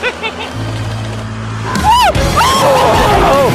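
A roller coaster with a 90-degree drop running backwards: a low mechanical rumble swells suddenly into a loud roaring rush, and riders' screams and shouts rise over it.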